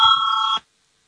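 A bell rings to call a parliamentary vote: a bright, steady electric ring of about half a second that cuts off abruptly into silence.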